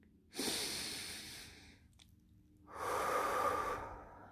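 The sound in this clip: Deliberate, slow breathing out through the airway, as in a calming breath exercise: two long, airy whooshes of steady breath, each over a second, separated by a quiet pause, with no talking.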